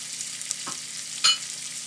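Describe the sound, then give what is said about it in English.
Onion, apricot, raisins and spices sizzle in a pan: a steady, fairly quiet frying hiss with two brief stirring scrapes, the second one louder. “That's going to get a bit of a mix around. Temperature's going to go a bit lower. I'm going to cook that, those bits together, the onion, the apricot, the raisins and all those spices,”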